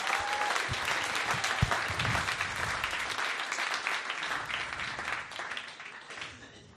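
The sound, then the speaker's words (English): A comedy audience gives a comedian a round of applause, with dense, steady clapping that slowly tapers off toward the end. “Ladies and gentlemen, give Joe Collett a round of applause.”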